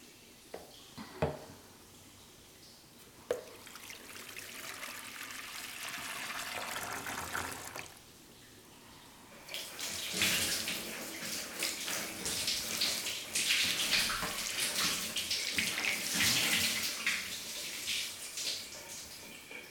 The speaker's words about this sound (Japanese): 背中、お流しますね。お湯をかけますので、熱かったらおっしゃってください。